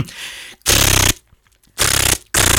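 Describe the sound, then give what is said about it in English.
A human voice imitates a machine gun, making rapid, loud rattling bursts with short gaps between them, mimicking automatic fire. “Have you ever heard my machine gun?”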